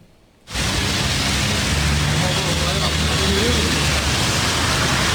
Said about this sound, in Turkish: İSKİ'nin ana su boru hattı patladı. Sokaklar su altında kaldı.